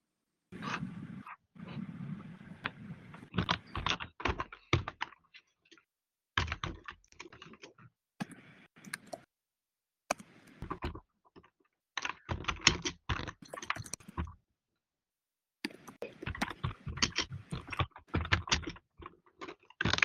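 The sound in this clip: Rapid typing on a computer keyboard, likely picked up by a participant's microphone: quick clusters of sharp clicks come in bursts separated by short silent pauses, fairly quiet and with no voices.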